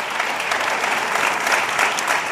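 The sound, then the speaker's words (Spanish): Audience applause, a dense, even patter of many hands clapping at a steady loud level throughout, with no voices over it. “Aplauso para los dos.”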